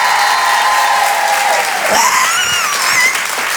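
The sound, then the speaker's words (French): A live stage audience of women applauds and cheers in a loud, dense burst, with high whoops rising above the clapping. “les filles, faites-moi du bruit, s'il vous plaît”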